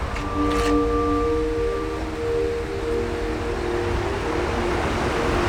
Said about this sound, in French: Qu'on entend là, le cours d'eau, le torrent derrière, c'est le Vénéon.